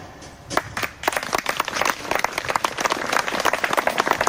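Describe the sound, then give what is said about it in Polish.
Applause from participants at an evening gathering in Anin. It starts with a few faint claps, then swells into dense, steady clapping from many hands. “No to są, proszę Państwa, oklaski właśnie uczestników tego spotkania wieczoru księdza Jana w Aninie.”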